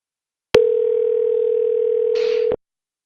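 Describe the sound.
A telephone line tone during a call transfer: one steady, loud, mid-pitched beep held for about two seconds, starting and stopping abruptly, with a short burst of noise just before it cuts off.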